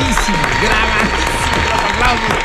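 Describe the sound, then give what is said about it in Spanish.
Crowd applause greets a sports radio host: a dense, steady wash of clapping runs evenly through the whole stretch beneath a talking voice. “Llegó el momento del aplauso grande, señoras y señores, porque está Nicolás Romay, final del Niño Maravilla.”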